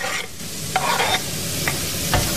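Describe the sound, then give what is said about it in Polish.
Finely diced onion sizzles as it fries in a pan, with a steady hiss and a few soft clicks of stirring. “Cebula na patelnię.”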